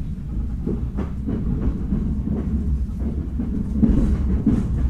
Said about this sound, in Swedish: Här är någon form av station.